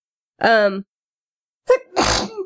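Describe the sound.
A single loud, sharp sneeze with a quick intake of breath just before it, preceded by a short voiced sound and a pause of silence.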